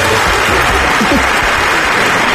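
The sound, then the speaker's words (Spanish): Dense, loud audience applause at a comedy show, continuous clapping that fills the whole clip without a break. “Otra vez, dos aplausos, muy bien.”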